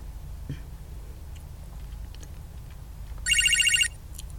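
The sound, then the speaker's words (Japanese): A telephone ringing in a video game: one bright, rapidly trilling electronic ring lasting under a second, sounding after a stretch of near silence. “なんか電話鳴ってるよ。”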